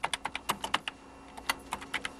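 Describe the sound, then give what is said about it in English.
Typing on a computer keyboard to enter a story page by page: many crisp key clicks in quick, uneven bursts with a brief pause midway, no voices. “When the story is ready, it's typed into the computer, a page at a time.”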